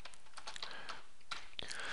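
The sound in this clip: Fingers type a title on a computer keyboard while entering a new item in task-tracking software: a faint, steady run of quick plastic key clicks, with a few sharper strikes near the end.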